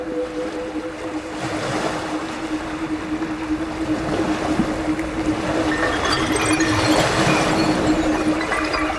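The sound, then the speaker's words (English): Ocean waves roar as a continuous, broad wash of surf with some wind noise. The sound swells gradually louder and fuller toward the end, and a faint steady hum runs underneath. “the ocean like cancels everything out. Close your eyes. Like overwhelming sound that you just hear that”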